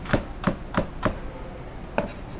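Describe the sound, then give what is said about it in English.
A knife dicing raw rhubarb for salsa: four quick, evenly spaced chopping thuds, a short pause, then a fifth chop, crisp and moderately loud with no talk. “makes it really easy because it's already pretty much cut up. And you can just dice it, and we're going to leave it raw.”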